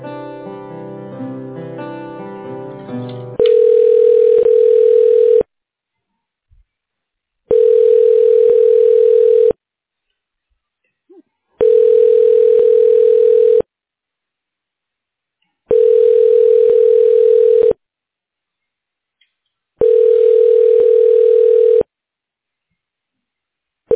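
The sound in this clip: A telephone line's ringback tone sounds while a call is being transferred to voicemail. Five steady tones, each about two seconds long, alternate with equal silences, and a sixth tone starts at the very end after a short opening of other sound.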